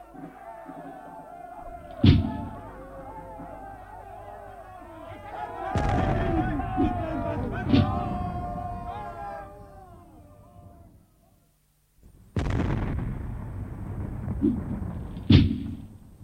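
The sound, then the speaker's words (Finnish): Battle din with artillery fire: several heavy booming blasts strike over a churning, clamorous background, which drops to near silence before more blasts follow. “Oikealta kuuluu sotajyry.”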